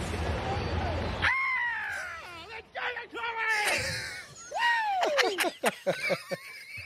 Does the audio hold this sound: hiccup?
no

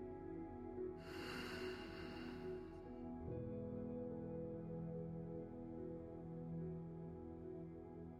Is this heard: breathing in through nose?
yes

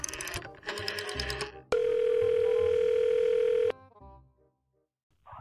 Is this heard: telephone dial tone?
yes

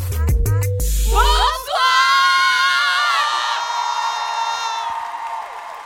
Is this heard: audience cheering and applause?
yes

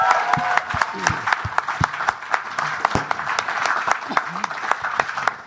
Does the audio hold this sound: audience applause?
yes

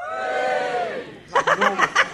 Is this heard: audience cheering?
yes

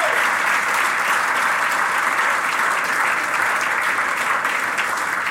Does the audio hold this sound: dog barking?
no

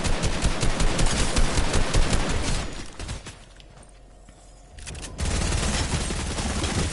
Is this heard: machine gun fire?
yes

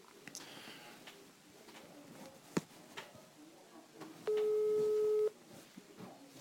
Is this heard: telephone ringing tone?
yes

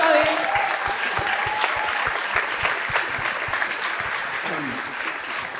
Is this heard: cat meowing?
no

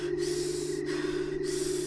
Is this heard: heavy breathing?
yes

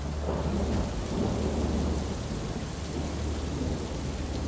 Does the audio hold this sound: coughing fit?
no

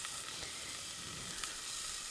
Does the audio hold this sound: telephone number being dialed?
no

